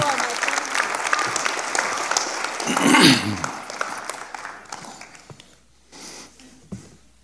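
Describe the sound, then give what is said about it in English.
Sustained audience applause at a church testimony gathering: dense, steady clapping that swells, peaks, then thins and fades out, with voices heard as it dies down. “A big round of applause for Aunt Betty.”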